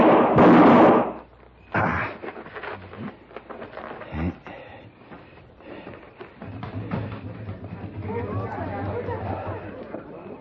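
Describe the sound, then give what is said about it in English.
A loud gunshot-like bang opens a radio drama scene, followed by a few quieter sharp knocks and a steady murmur of voices. “Somebody took a shot at me. They ran down that alleyway.”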